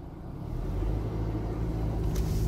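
A car drives up to a drive-through window with a steady, low engine rumble that swells slightly as it rolls forward, with no talk.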